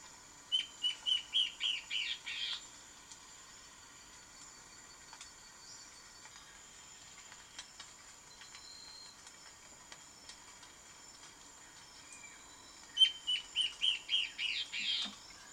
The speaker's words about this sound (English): here's the sound of their control bird that they used, the Peruvian warbling ant bird.